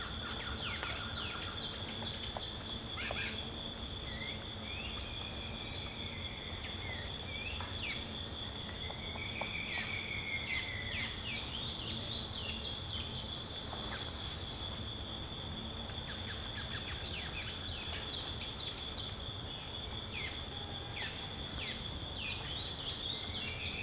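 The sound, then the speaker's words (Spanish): Repeated short calls of a blue-grey tanager (Thraupis episcopus) recur every few seconds over a continuous high, steady cricket trill and faint background noise. “Parece Traupis Episcopus”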